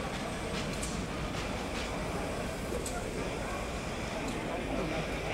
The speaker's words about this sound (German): Express nach Edinburgh über Cambridge, Lincoln, Doncaster, York und Newcastle bitte einsteigen und die Türen schließen. Der Zug fährt ab.